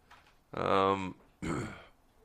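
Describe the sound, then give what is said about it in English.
Someone clears their throat twice in two gravelly, voiced bursts, the first longer and louder than the second. “excuse me. She's got the tickle in her throat, and I've got whatever.”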